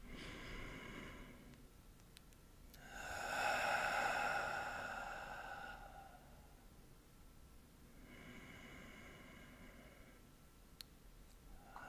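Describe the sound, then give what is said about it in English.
A deep breath drawn in during a guided breathing class: a slow, airy inhalation lasting about three seconds, later followed by a softer, quieter breath. Faint overall, with no talking. “we're gonna do four deep breaths together. And after that, we're gonna breathe normally. So we're gonna start with the first deep breath, and welcome to close your eyes. Let's inhale.”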